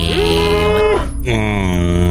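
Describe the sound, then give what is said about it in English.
A young cow moos in a video game, two drawn-out, steady lowing calls with a brief break between them, loud and with no voices over them. “I have spotted a young cow. Then let's go get that cow.”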